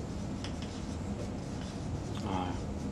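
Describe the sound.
Scratchy drawing strokes on a board, short scraping bursts of a pen or marker over a steady low background hum.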